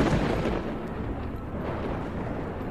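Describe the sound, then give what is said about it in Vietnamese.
Thunder rumbling across the sky amid a magical battle, a dense continuous low roar that stays fairly quiet and steady throughout, without distinct sharp cracks. “trên trời sấm sét vẫn cứ vằn vện lên đùng đùng.”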